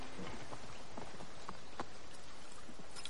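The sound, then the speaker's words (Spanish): Horses gallop through a forest, their quick hoofbeats rapid and faint beneath a steady wash of noise. “El grupo de Tamar galopa por el bosque, pasa bajo un puente.”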